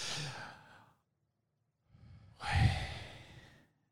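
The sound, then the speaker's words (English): A person takes a deep breath in, holds it, then lets it out. A breathy inhale is followed by about a second of silence, then a longer, louder sighing exhale that swells and trails off. “we're going to breathe in and say Yah. I mean, not say it, but it's just kind of what you do when you breathe. Mm-hmm. Hold it for a little bit and then exhale.”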